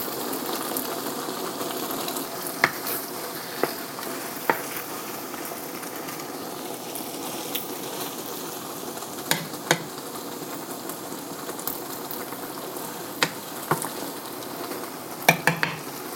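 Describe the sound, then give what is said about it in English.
Food simmering in a pan on very low heat gives a faint, steady sizzling hiss. Occasional small pops and ticks are scattered through it. “I'm just going to let it simmer here on really low.”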